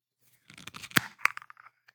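A True Fruit smoothie bottle (blackberry, blueberry, blackcurrant, raspberry, orange, banana and apple) being opened, a quick burst of crisp crackling clicks from the cap seal with a couple of sharper snaps in the middle.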